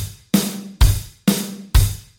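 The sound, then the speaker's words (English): A traditional rock drum beat with the kick drum on the first and third beats, alternating deep kicks with sharper snare-like hits at a steady mid tempo, each hit ringing briefly before the next. “A traditional rock drum beat sounds like this,”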